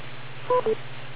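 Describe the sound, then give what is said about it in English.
An amateur radio repeater beep: two short electronic tones in quick succession, the second slightly lower, over a steady low hum. “wait for the beep. Don't time out the machine.”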